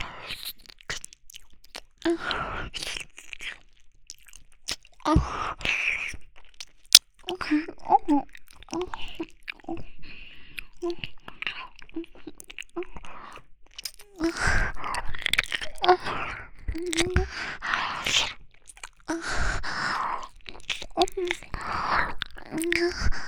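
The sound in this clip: Hard, crunchy food being bitten and chewed, with many crisp crunches in irregular bursts and soft breathy vocal sounds between them.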